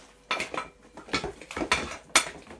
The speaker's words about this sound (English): I'm doing a really good stir.